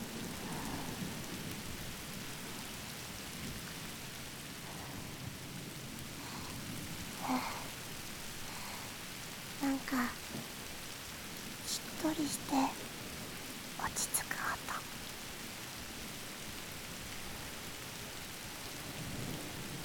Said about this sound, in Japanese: 雨が地面に落ちる音が振動して、耳を優しく叩いてくれますよ。